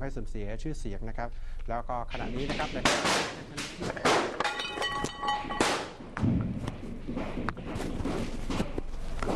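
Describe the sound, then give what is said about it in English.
Gunfire erupts during a television broadcast at an opposition TV company in Thailand, many sharp cracks and heavy thuds under a person's continuous talk. “You can hear the gunfire in the background.”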